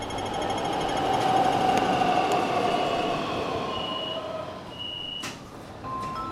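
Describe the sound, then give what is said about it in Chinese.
A subway train pulls into a station with a steady rumble and rattle of wheels on rails. A thin metallic squeal rises above the din, and a few sharp clanks come near the end. “生动特快一号线提醒您，前方到站生动游乐场站。”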